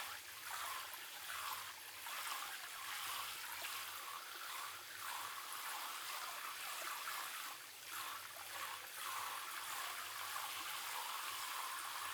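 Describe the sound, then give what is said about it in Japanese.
Water poured to rinse someone's feet, a steady bright splashing hiss that runs continuously at an even level throughout, with slight rises and dips. “足を流しますね。”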